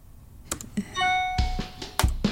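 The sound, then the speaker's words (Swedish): An email notification chime sounds once: a brief, bright tone with stacked overtones that holds for under half a second, surrounded by a few sharp clicks like keyboard taps before and after. “Mailen plinga.”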